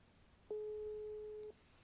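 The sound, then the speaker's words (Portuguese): A busy signal after a dropped phone call, a single steady mid-pitched beep lasting about one second, standing alone over faint background hiss. “E caiu a ligação. Pera aí. Caiu a ligação, gente.”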